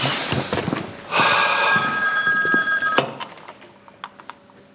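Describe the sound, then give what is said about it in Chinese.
A telephone bell rings loudly and steadily in one burst of about two seconds, then cuts off. A few faint clicks follow. “对不起，我接个电话啊。”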